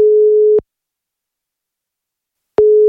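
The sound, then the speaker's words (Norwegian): Telephone ringback tone while placing a call: a steady, mid-pitched electronic tone holds for about half a second, falls silent for two seconds, then starts again at the end. “Ja, og jeg gleder meg til å ringe Jo. Skal vi bare rett og slett bare gjøre det, eller?”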